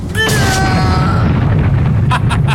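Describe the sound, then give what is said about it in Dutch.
A bomb explosion: a loud, dense roar of noise fills the whole clip without a break, with a few short, sharp crackling bursts near the end. “Dit is het bewijs, de bom doet het goed.”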